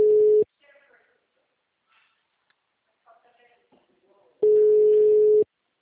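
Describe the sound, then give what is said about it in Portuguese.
Telephone busy signal on a call: a steady, low electronic tone sounds briefly at the start and again near the end, with a long quiet gap between them holding faint, muffled voice fragments. “Peraí, que eu tô tentando falar com alguém. Uma ligação.”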